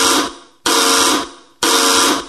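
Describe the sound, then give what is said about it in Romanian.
An alarm buzzer sounds after the alarm button is pressed: three loud, harsh, steady-pitched buzzes, each fading out before the next one starts abruptly. “Apasă pe butonul ăla de alarmă, nu pe ăla. Pe ăla de alarmă.”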